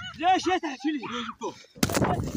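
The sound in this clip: Gunfire during an attack on a Palestinian olive farmer. A voice calls out, then a sudden loud, harsh burst of gunfire follows with a noisy tail.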